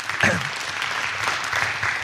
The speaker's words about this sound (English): Would you just put your hands together for the worship team? Isn't it awesome today?